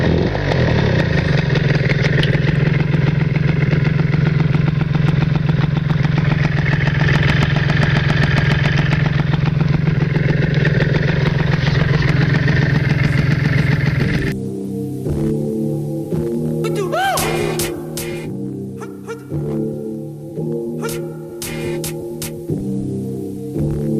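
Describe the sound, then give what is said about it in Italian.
A flooded moped engine runs loud and continuous, a steady droning idle that partway through drops into a lower, rougher throbbing with uneven pulses. “Senti com'è bello ingolfato qua. Guarda, guarda, guarda la benzina.”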